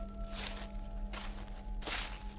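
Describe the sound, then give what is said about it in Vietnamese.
Footsteps crunch over gravel and dry leaves outside, three soft, separate scuffing steps with a faint steady hum beneath them. “Ở bên ngoài bắt đầu có tiếng động, tiếng sỏi đá lạo xạo, tiếng bước chân dẫm lên lá cây loạt xoạt.”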